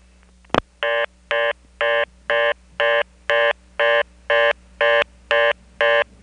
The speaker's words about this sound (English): From the Kenley payphone, 1 plus any complete number did end up being restricted in the same usual Carolina telephone way, just like Bellhaven, except Kenley didn't have a broken reorder.